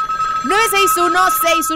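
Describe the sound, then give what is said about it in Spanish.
An electronic telephone ringtone sounds as a studio phone line is switched on, bright melodic warbling tones in a few quick pulses, loud and clear. “Vamos a activar línea telefónica en cabina.”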